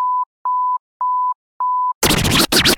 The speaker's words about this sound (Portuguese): Atenção, emissoras, para o toque de 5 segundos.